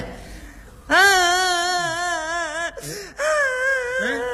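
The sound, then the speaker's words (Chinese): A small boy cries while held by a woman. The loud, drawn-out wail wavers in pitch, breaks off for a moment and then resumes just as strongly. “阿姨抱着小孩哭了，这你怎么办？”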